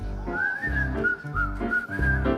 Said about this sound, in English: just whistle while you work.